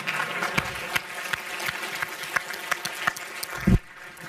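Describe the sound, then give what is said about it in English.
An audience claps at a speaking event for a round of applause. The clapping is sparse and uneven, with distinct individual claps, and stops shortly after a louder thump near the end. “And round of applause for Patrick, please.”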